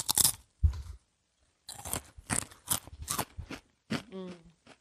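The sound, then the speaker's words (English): Crunching and chewing on thick, spicy potato chips during a blindfolded taste test: several loud, crisp bursts of crunching separated by short pauses, with a brief voice near the end. “Those are Ruffles. No, I think these are... They're too thick to be Ruffles.”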